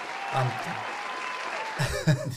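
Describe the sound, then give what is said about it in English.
A crowd cheers and applauds at a gathering: a steady, dense wash of clapping. A voice talks over the noise near the end. “The crowd is going wild.”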